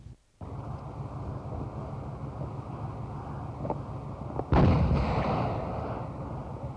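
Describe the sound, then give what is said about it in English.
A mine destroyed by Marines during Operation Pegasus goes off in a sudden loud blast past the midpoint, following a steady windy rumble, then a broad roaring decay that slowly fades. “The mine was destroyed, and the Marines of Operation Pegasus pushed on toward Quezon.”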